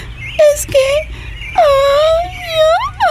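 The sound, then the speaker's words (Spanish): A girl crying and sobbing, several loud, wavering, high wails that rise and fall, broken by short gasping pauses. “¡Tranquilízate! ¡Tranquilízate por un momento! ¡No llores!”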